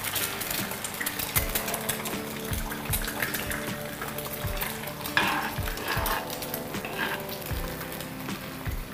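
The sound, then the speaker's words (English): An egg frying in a pan for a garnish, with a steady hiss of sizzling fat and repeated scrapes and clinks of a utensil against the pan throughout. “for the garnishing, I'm making some fried egg.”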